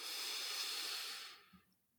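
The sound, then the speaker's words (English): A deep inhale through the nose during a guided breathing exercise: one long, steady breathy rush that holds for over a second, then fades away to near silence. “take a really deep inhale through the nose.”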